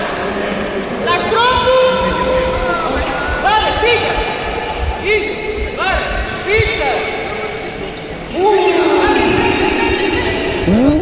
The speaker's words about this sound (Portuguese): Só tem que conduzir a bola em direção à baliza e depois rematar.